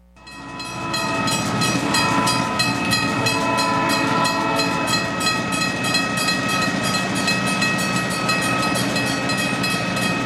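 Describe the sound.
Train sound effect: a loud, steady rumble of a rail train with sustained whistle-like horn tones held throughout, starting abruptly after a brief quiet moment.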